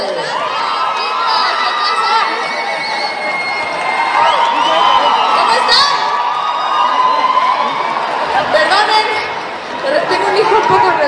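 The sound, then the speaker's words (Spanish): Audience cheering at a live cumbia concert: loud, sustained crowd noise full of shouts, whoops and high excited voices, swelling in places and holding steady for the whole span. “¡Ese aplauso fuerte!”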